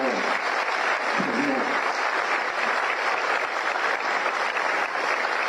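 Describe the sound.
Audience applause for a president at a public event: sustained, dense clapping that holds a steady level through the whole stretch, with no breaks.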